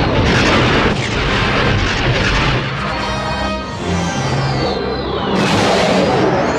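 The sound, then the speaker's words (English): Heavy weapons fire in a dense, continuous barrage of loud booms and blasts with a rumbling roar underneath, joined near the end by a high whine that sweeps downward. “Heavy fire, boss.”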